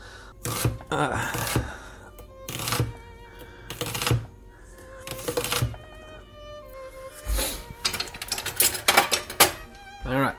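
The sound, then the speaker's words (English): Knife chopping spinach on a cutting board for soup: a few sharp, separated strikes at irregular intervals, loud against a quieter background. “So I just got some spinach, because that's like the most healthy thing I can think of. And I'll cut it up really fine, just to add something a little bit green to this soup.”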